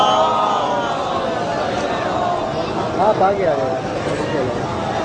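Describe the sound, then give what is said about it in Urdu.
A large gathering recites salawat together at a rally for the liberation of Quds. Many overlapping voices chant in unison at a steady level, swelling slightly near the middle. “ایک صلوات پڑھ لیجئے.”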